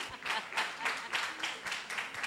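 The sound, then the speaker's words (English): Audience applause for a contestant, a steady run of rhythmic, fairly even handclaps, many in quick succession at a moderate level. “let's clap for the gentleman”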